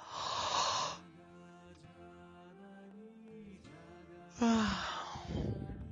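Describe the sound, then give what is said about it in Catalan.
Two breathy vocal sighs or yawns while stretching the arms upward with fingers interlaced, each a loud exhaled burst, the second ending in a voiced tone. Soft, sustained musical tones fill the gap between them. “Entrellacem els dits per davant nostre, de les mans, i estirem els braços cap amunt, sospirant, badallant.”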